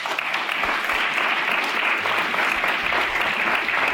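An audience applauds at the close of a panel discussion, with a steady, even wash of clapping from many people that continues unbroken throughout.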